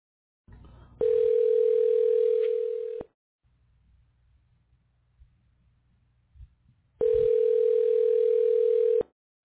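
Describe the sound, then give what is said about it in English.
A telephone ringback tone plays while a caller waits for someone to pick up: two long, steady buzzing rings of about two seconds each, separated by a quiet gap with a faint low hum. “Come on, pick up the phone.”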